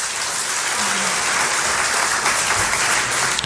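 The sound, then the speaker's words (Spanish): Audience applause at a live concert with piano, voice and trumpet: dense, steady clapping that fills the whole clip at an even loudness, with no clear breaks. “Aplausos, porque evidentemente el concierto es en directo.”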